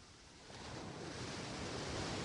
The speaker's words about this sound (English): As the waves continue to wash up onto the sand, then the sea back into the ocean, washing up